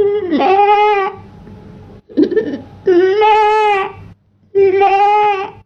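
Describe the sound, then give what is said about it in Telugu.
Goats in a herd bleat four times, each call loud, wavering and nasal, with short silent gaps between them and no other sounds. “తానుండే మేకల మందును వెతుక్కుంటూ వెళ్ళి మేకల మందును చేరుకొని”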